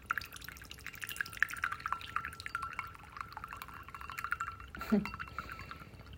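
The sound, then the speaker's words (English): Tea pouring from a loud teapot into a bowl: a steady, bright trickle of liquid with dripping, splashy texture that runs through the whole clip, with a brief fuller splash near the end. “This is quite a loud teapot today.”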